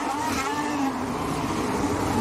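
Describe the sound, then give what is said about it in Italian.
Formula 1 cars circling at the Brazilian Grand Prix, giving a continuous, moderately loud engine whine with steady tonal harmonics and no break throughout. “Che bella l'ultima curva, così, con le ultime macchine che si stanno sistemando, sono già in pit Tsunoda e Carlos Sainz”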